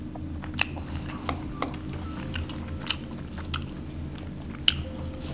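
Chewing and biting on food with gravy and vinegar: several soft, moist squishes and small crunches spaced irregularly over a steady low hum, fairly quiet throughout.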